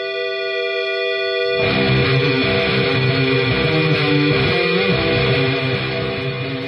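Punk metal from a Charleston, West Virginia band: a held, ringing tone gives way to a dense wall of loud, distorted guitars and drums that stays steady and heavy to the end.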